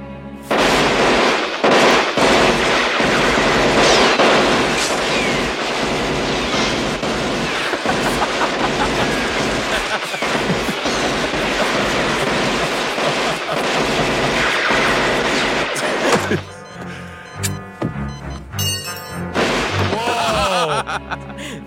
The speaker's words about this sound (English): Oh, gun battle.